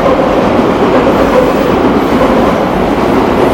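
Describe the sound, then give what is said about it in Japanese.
A train passes overhead on an elevated railway near Yoyogi, a loud, continuous rumble with rail clatter that fills the whole stretch without letting up. “すごい電車。 はい、 はい、 今高架下を、”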